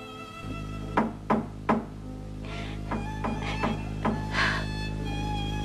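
Knocking on a door: three firm, evenly spaced knocks, then a looser run of softer knocks over a steady tonal background.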